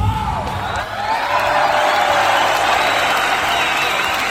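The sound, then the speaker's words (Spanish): Applause and cheering from a crowd, many hands clapping under scattered whoops, loud and sustained throughout with a slight swell after the start. “Pues un aplauso por el objetivo conseguido por esta venerable mujer.”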